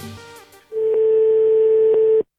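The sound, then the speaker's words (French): A telephone rings out while calling an unknown number. After a brief snippet of voice, a single long, steady ringback tone plays at an even pitch, then cuts off abruptly. “On appelle un numéro inconnu.”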